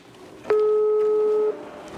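A telephone call's ringing tone sounds once, a steady, clean mid-pitched tone about one second long against a quiet background.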